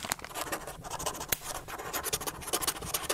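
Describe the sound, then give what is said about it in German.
A letter being written by hand, with a pen scratching steadily across paper in many quick, rubbing strokes and a few sharper ticks, loud and continuous, with no voices. “Am Abend des 31. Oktober sitzt Martin Luther in seiner professoralen Wohnung im Südturm des Wittenberger Augustinerklosters und schreibt dem Erzbischof einen Brief.”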